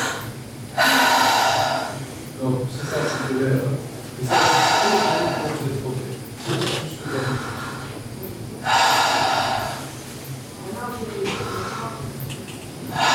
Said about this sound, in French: Alors, respirez par la bouche.